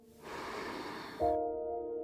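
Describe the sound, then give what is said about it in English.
A deep breath in and out during a guided breathing exercise, faint and airy, drawn slowly and then released. “In with your breath, filling yourself up, and then letting it go.”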